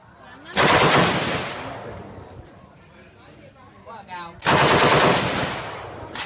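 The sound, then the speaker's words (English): Machine gun fire from a holiday shooting session in Vietnam: two long, loud bursts of rapid shots, split by a quieter stretch where faint voices can be heard. “that was the sound of George Osborne firing a machine gun in Vietnam on holiday.”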